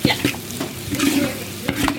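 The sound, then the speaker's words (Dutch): Scraping and stirring of sauce in a pan, with a few sharp scrapes against the pan and a faint sizzle underneath. No one speaks. “Ja, je moet een soort schrapen en roeren tegelijk.”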